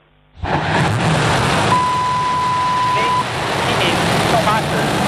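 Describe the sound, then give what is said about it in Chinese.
The Long March 7 Y11 rocket ignites and lifts off at the Wenchang launch site. A loud, broad roar starts abruptly and holds steady, with a steady tone sounding over it for a while. “8:14，长征七号遥十一运载火箭点火起飞，约十分钟后，天舟十号货运飞船与火箭成功分离，并进入预定轨道。”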